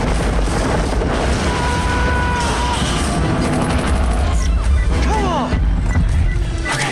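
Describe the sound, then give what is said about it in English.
A missile explosion blows up a tank during a firefight between troops and enemy tank forces. Loud booms and blasts mix with rapid gunfire-like bursts, keeping a dense, heavy barrage from start to finish. “As he struggles to remove a disk drive, the Seahawks trade fire with the Serb forces. A missile blows up one of the tanks.”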